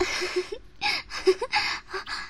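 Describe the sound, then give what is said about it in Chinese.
Rapid breathing from a person reacting to ticklish scratching: a quick run of short, breathy gasps, several with a slight voiced tone, following one another closely. “好痒，痒得我呼吸越来越急促了”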